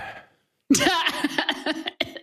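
Coughing from someone with something caught in the throat, starting with a sudden harsh burst after a brief silence and continuing as a string of rough, choppy hacks of uneven rhythm.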